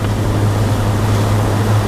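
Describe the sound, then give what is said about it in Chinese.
Heavy rain and wind during a thunderstorm make a loud, steady wash of hissing noise with a low rumble underneath, unbroken and even throughout. “雨太大了，我就先进屋了啊。”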